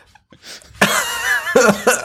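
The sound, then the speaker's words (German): A person coughing on purpose: a few rough, loud bursts, the first quieter and breathy, the next longest and most forceful, then two shorter coughs close together. “Hustet.”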